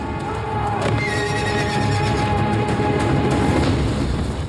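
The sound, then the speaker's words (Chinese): A horse-drawn carriage charges through the streets of Tang-era Chang'an in a period drama, with loud high whinnies over a continuous pounding rumble of galloping hooves and wheels. “我们现在所听到的张小静驾着马车在街道上横冲直撞”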